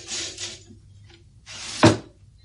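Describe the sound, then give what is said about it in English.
A window being opened during a rooftop escape: two rasping scrapes of the frame sliding, the second ending in a sharp knock, with a faint brief rub between them. “Coom, open the window there. We shall have to make our escape over the roof. Come on, man. The window. The window.”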